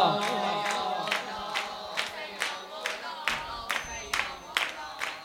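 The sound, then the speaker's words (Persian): A crowd at a devotional gathering chanting for Imam Husayn claps hands in a steady, even beat, with many loud claps under continuous massed voices. “باید دست بزن.”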